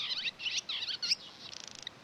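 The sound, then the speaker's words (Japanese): Barn swallow song from a male in spring, a few quick high twittering phrases followed by a fast, dry ticking rattle, faint and alone. “ツバメのさえずりは土食って虫食って渋いと聞きなしされているんですね。面白いさえずりだと思います。”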